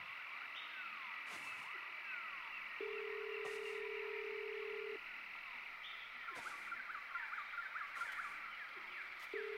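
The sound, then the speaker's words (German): A telephone call is dialed in the Brazilian jungle. A steady low electronic tone holds for about two seconds and returns at the end. Faint clicks and a continuous insect-like jungle hum sit underneath, all quiet. “Ich rufe meine Freunde an.”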